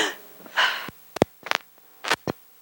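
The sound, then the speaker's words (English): Deep belly breaths taken by an audience on cue, heard as a few short, airy inhales and exhales with sniffs, spread unevenly over a quiet background. “let's take a deep breath. Take a deep breath from your belly.”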